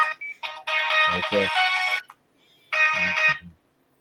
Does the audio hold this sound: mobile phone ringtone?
yes